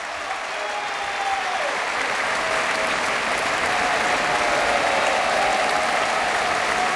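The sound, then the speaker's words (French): Enthusiastic applause from the audience at the Philharmonie after a Requiem performance: dense, steady clapping that swells slightly louder toward the end, with no pause. “Vous l'entendez, le public de la Philharmonie est enthousiaste, le chef aussi, voilà, qui invite le ténor Penepati à le rejoindre”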